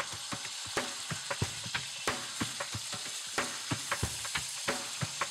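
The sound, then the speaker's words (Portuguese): Meat sears in a hot pan as its sides and ends are sealed, giving a steady loud sizzle broken by many sharp crackling pops throughout, with no talk. “E por último, as extremidades. Isto serve para que os sucos fiquem dentro da carne. Esta operação chama-se selar a carne.”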